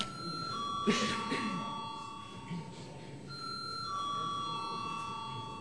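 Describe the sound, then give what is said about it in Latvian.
An electric bell rung to summon members to a vote in the Latvian parliament chamber, a steady sustained ringing tone holding through, with a faint murmur of voices and movement beneath. “Lūdzu zvanu.”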